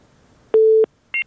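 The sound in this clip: A phone busy tone after a call disconnects: one steady low beep lasting about a third of a second, then after a short gap a brief, higher dual-tone blip, with near-silence around them.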